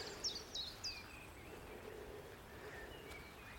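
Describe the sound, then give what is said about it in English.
Chiffchaff song in a hidden Welsh valley in early spring: three faint, high, clipped notes come in quick succession near the start, then only a soft, quiet background remains. “There's a chiff chaff.”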